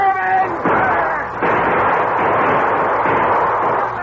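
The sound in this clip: Gunfire from a boat during a river battle against canoes: a few heavy, booming blasts over a dense roar, with a voice briefly at the start.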